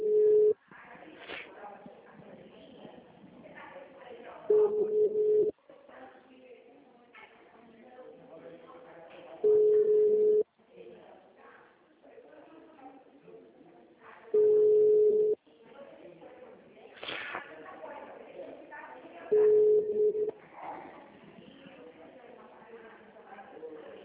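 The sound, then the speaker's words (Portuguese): An unanswered telephone call rings out as a steady ringback tone in about five one-second bursts, each returning roughly every five seconds, with people talking in the gaps between them. “Alô? Alô? Oi, a Angela não está atendendo lá. Não tem problema, depois eu dou uma ligadinha. Vou passar de novo, peraí”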